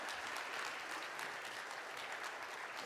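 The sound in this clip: Faint but steady applause from an audience welcoming a speaker, a continuous even wash of many hands clapping with no break.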